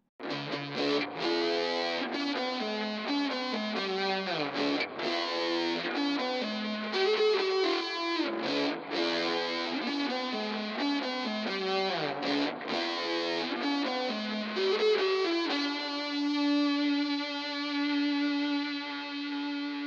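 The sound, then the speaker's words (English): Electric guitar played through a stereo wet/dry amp rig, with each speaker cabinet miked separately and the effected and dry sides panned slightly apart. Dense distorted chords play continuously, ending on a ringing sustained chord. “We'll mic up each speaker cabinet separately and record the whole rig at the same time, panning the wet and dry slightly left and right to provide some separation between the two.”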